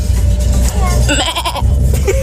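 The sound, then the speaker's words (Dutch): A person imitates a goat's bleat with a wavering, nasal, vibrato cry, heard over a steady low rumble inside a car. “vanaf dat ik heel erg jong was, wist ik dus al dat ik heel erg goed een geit na kan doen. nou, hier is mijn geit.”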